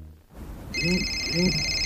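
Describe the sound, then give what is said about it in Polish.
A telephone rings with a steady, high electronic ringing tone that begins partway through and continues to the end, while a faint voice sounds underneath. “O, telefon z przychodni. To pewnie nasza teleporada. Kochanie, odbierzesz?”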